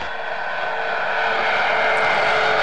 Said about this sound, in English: And the puffing you can hear is from the auxiliary power units, which are used to provide the power needed to operate the aeronautical systems